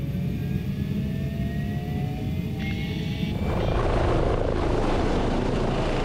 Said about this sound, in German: Wird das Gelände schwierig, geht es in die Luft. Einsatz für den Helikopter.